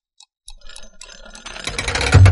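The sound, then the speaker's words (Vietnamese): A hidden mechanism clicks open inside a stone statue. A few sparse clicks and rattles build into a denser mechanical clatter that ends in a louder, low rumble. “Những thanh âm cơ quan mở ra vang lên, trên tượng bất ngờ hõm lại một cái lỗ lớn.”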